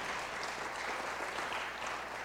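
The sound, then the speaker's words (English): A church audience applauds its leaders, a faint but steady stretch of many hands clapping that stays even from start to finish. “So if you guys could give them a round of applause, whether it's the two main leaders or any of our leaders, that's fantastic.”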